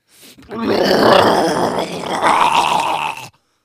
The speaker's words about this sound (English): that's just our dog, Deuce.